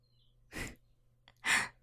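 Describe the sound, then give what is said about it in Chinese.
Heavy breathing: two loud, breathy exhalations like sighs, separated by a short quiet pause, with no talking. “你的呼吸怎么这么重啊？”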